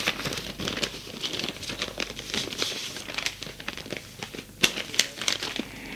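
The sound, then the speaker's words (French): A paper letter is handled, crinkling and rustling in many crisp, irregular bursts that vary in loudness, with a few sharper crackles toward the end. “Un matin, Nicolas reçoit une lettre.”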